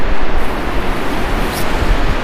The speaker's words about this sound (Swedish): Vad gör Älvsbrus med dig och ditt huvud?